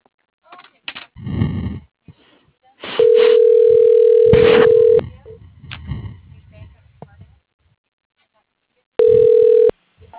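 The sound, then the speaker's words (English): A telephone dial tone sounds as a loud, steady held tone for about two seconds, then returns briefly later, with voices talking and shuffling noises between. “I just dialed.”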